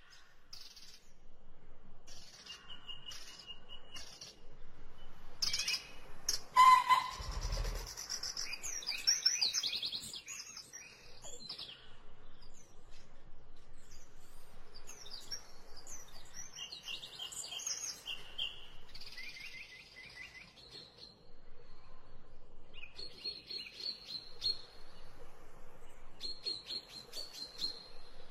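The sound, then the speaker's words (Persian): Forest ambience with scattered bird chirps and calls over a faint, quiet background, including some sustained high-pitched calls toward the end. “یکی از صداهای دیگه که باز مشترک بود در بین جوابهای شما دوستان عزیز صدای جنگل بود.”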